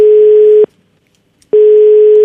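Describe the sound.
A telephone ringback tone sounds as a caller rings a woman: two long, steady, even-pitched tones separated by a silent pause, the second running to the end, with no voices.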